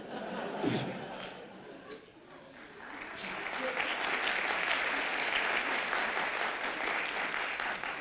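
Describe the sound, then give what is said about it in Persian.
Audience applause for Imam Khomeini, quieter at first, then swelling into dense, steady clapping that holds to the end. “برای امام واقعا باید خیلی دست کف زد.”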